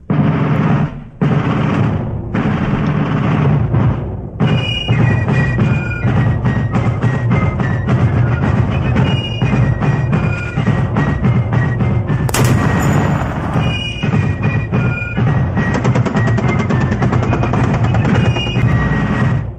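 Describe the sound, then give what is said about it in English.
Gunfire sound effects open a rapid-fire segment: a dense, loud, nearly unbroken barrage of shots and booms lasting throughout, with only brief dips in intensity. “Let me get the rapid fire opener going here real quick.”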